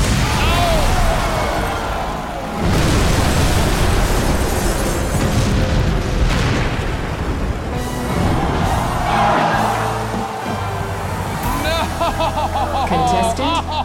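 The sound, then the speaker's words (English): A game show's bomb explosion effect, the maple syrup bomb set off after a failed answer, bursts as a loud, rumbling blast that carries through the whole clip, with voices and tonal sounds mixed in near the end. “Fail. The maple syrup bomb. You got tagged with the maple syrup bomb.”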